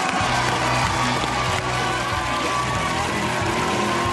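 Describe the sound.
A Colbert Report studio audience making low, drawn-out "boo" bear calls for Bill O'Reilly as he is welcomed: a loud, continuous crowd roar that holds steady for the whole stretch.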